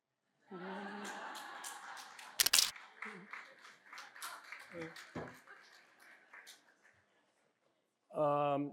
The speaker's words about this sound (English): And I swear I didn't plan this, but I need to do a selfie now.